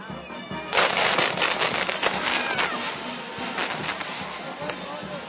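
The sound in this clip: Burning chihuahua firework figures crackle and fizz at a festival in Quito, a dense, sustained stream of rapid pops and sizzling, with voices mixed in.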